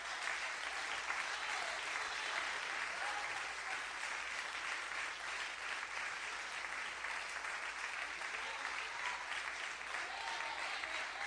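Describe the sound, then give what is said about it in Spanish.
Applause from a church audience during a sermon: dense, continuous clapping sustained evenly for about eleven seconds at a fairly soft level, without pauses or swells. “dale un aplauso a Cristo que Él se lo merece.”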